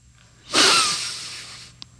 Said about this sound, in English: Listen to my nose breathe.